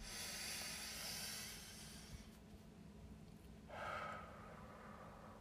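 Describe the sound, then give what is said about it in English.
A slow, deep breath is taken as a soft, airy hiss of inhaling that lasts over a second. After a quieter pause comes a shorter breathy release, all faint, with no speech. “let's all take a deep breath, okay? I call you all to just take a deep breath with me. So let's just do this together.”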